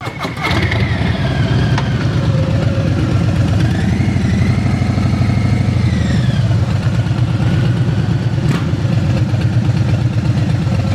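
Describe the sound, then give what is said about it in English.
Harley-Davidson motorcycle engine idling at a fuel stop, a steady, loud, low throbbing rumble that holds an even level for the whole stretch with no revving. “Wayne, who was filling up his Harley Davidson for a gentle Sunday ride.”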